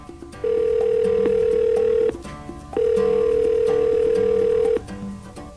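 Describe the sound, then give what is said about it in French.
Telephone ringing tone as a call is placed: two long, steady electronic tones of about two seconds each, separated by a short pause, over a faint background hum. “Je compose le numéro. Et ça sonne.”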